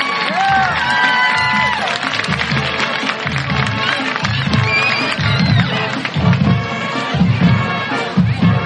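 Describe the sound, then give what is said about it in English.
Crowd cheering and applauding at a high school homecoming football game, greeting the 2023 homecoming court: a loud, continuous roar of many voices and clapping, with shrill whistles and shouts rising above it throughout. “let's give your 2023 homecoming court a great round of applause.”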